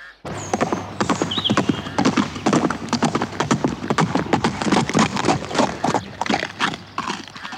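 Horse hooves clip-clop in a brisk, steady rhythm, many even strikes filling several seconds as the horse comes back from market.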